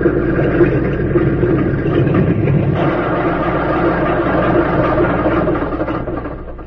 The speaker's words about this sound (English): Just before darkness fell, a plane circled the small field and came in for a landing. As its wheels touched the ground, two men ran to meet it.